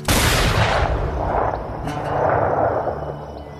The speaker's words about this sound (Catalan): Disparo.